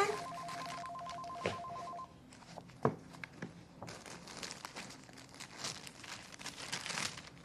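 A telephone rings at the start in a short, bell-like repeated tone lasting about two seconds, then stops, followed by soft rustling and crinkling handling sounds.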